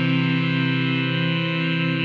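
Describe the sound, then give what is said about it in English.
A synthetic teleportation-machine effect: a steady, buzzy, distorted electronic hum with a slight wavering pulse, rich in stacked harmonics, holding loud and unbroken throughout. “Wow, that was beautiful, teleportation machine.”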